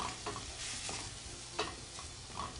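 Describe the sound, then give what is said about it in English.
Grated ginger is stirred into a sizzling pan of softening onions. A faint, steady fry hiss runs under a few sharper scraping stirring strokes, and no one speaks. “Next, I'm going to add some grated ginger.”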